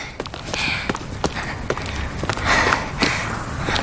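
Footsteps of people walking: many soft, uneven steps and scuffs in a loose rhythm, at a moderate level, with no voices.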